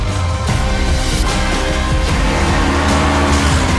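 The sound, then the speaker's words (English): Engines of Yamaha MT3 and MT7 motorcycles riding at night make a loud, continuous, dense roar that holds steady throughout, with no voices. “Riding the night. Yamaha MT3 and MT7.”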